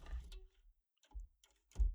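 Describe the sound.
Keys strike on a typewriter whose paper shifts along with each letter typed. A few sparse, faint, crisp clacks are separated by quiet gaps, and the last is the loudest.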